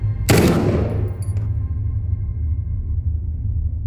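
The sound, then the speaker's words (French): A gunshot fired by a police inspector during a street chase: one sharp, loud blast that rings off and decays over about a second, leaving a steady low rumble beneath. “J'ai appuyé sur la détente presque sans m'en rendre compte. Je crois que j'ai touché.”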